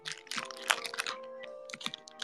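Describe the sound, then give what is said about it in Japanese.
Chewing and biting into a white mochi taiyaki filled with chocolate cream: many sharp, irregular crunchy clicks and crackles in quick succession, fairly quiet, with no talk. “デザートを食べています。白餅たい焼きチョコクリームを食べています。”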